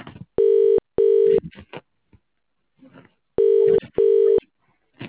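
A telephone ringing, heard as a buzzing tone in a double-ring pattern: two paired rings, a pause, then two more paired rings, with faint incidental sounds in the gaps.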